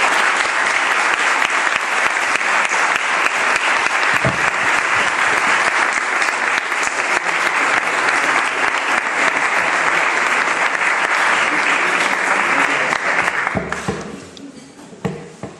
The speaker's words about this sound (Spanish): Así que por todo esto yo también le pido a ustedes un fuerte aplauso para el padre Sáenz.